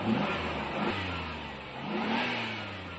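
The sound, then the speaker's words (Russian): A taxi's engine as the car drives slowly along a street: a steady, low, rumbling drone whose pitch wavers slightly, with no other sounds or voices. “Такси медленно проехало вдоль улицы и остановилось прямо у ворот дома номер 17. При этом раздался жуткий скрип и скрежет.”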